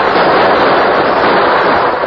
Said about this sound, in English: Premature explosion at the gap threw the rustlers into a panic.